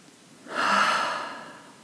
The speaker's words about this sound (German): Setz dich möglichst entspannt hin und dann atme jetzt nochmal dreimal tief ein und aus. Einatmen